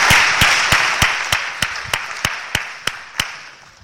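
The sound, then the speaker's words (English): Audience applause at a church children's ministry gathering: a broad wash of clapping that slowly fades over about four seconds, with sharp claps striking a steady rhythmic beat throughout. “Let's give them a big round of applause.”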